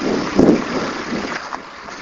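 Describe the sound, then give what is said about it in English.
Wind blows outdoors behind a shopping center, a broad rumbling rush with a stronger gust early on that then settles into a softer, steady hiss. “Maybe getting some wind here.”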